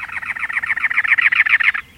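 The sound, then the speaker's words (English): A cactus wren sings from atop a prickly pear cactus in the Arizona desert in late April, a rapid, harsh chugging series of many even notes that grows slightly louder before stopping abruptly. “A cactus wren sings, perched atop a many-lobed cactus.”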